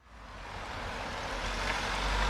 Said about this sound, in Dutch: Nu nog razen de auto's hier over het Winschoterdiep. De ringweg van Groningen, daar gaat het verkeer nog overheen.